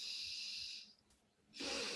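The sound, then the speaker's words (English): Someone demonstrates breathing in through the nose as part of calming breathing practice such as box or alternate-nostril breathing. Two soft, airy hisses are separated by a short quiet pause, both faint. “you do parasympathetic breathing styles like box breathing and alternate nostril breathing, you know, breathing in,”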